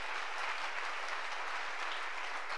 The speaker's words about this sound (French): Acclamez, acclamez, acclamez. Let's clap.